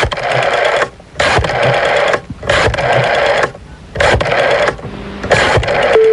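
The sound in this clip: A telephone rings in five loud buzzing bursts, each lasting about a second, with short silent pauses between them. No voices.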